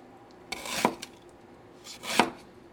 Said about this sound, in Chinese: 那这个每个姜段呢，其实也大概就是七到八公分左右。其实这个姜就是处理没有一定怎么样比较比较好啦，其实就是切片就可以了。